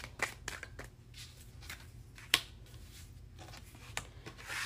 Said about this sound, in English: I'm going to pull a couple of these tea leaf oracle cards.